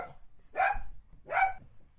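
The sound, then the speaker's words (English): An excited, floppy-eared puppy barks twice: two short, sharp, high yips spaced under a second apart, over a quiet background. “there was an excited, floppy-eared puppy named Belle.”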